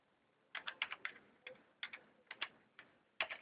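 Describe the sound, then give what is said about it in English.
Typing on a computer keyboard as a short welcome message is entered, with about a dozen crisp, clicky keystrokes arriving in quick clusters separated by brief pauses. “I'm just gonna type a welcome message. Just gonna type welcome.”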